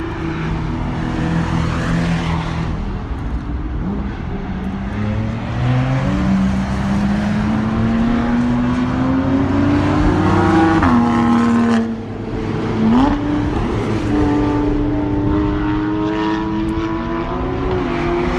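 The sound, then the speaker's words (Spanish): Porsche and Caterham race cars lapping the Jarama circuit, loud continuous engine drone with the pitch repeatedly climbing as the cars accelerate, a brief dip around twelve seconds, then another engine rising again. “He visto alpines, he visto mucho Porsche, mucho Caterham, así que vamos a dar una vuelta y a disfrutar el día. Os dejo con los sonidos del Jarama.”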